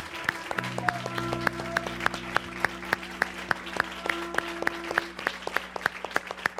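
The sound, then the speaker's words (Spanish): Congregation in a church clapping in a steady, even rhythm, many sharp claps repeating through the whole stretch over sustained held musical tones. “Dele un fuerte aplauso al Señor. Give a big hand to the Lord.”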